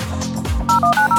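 Touch-tone telephone dialing, heard as four quick, bright beeps in rapid succession near the end. A low, muffled rumble comes before them.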